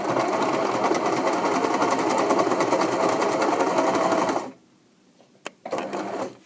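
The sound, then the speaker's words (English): A sewing machine runs fast and steady, a dense rapid rattle of stitching that stops abruptly; after a short pause and a single click it starts up again briefly. “That mystery sound was the sound of my sewing machine.”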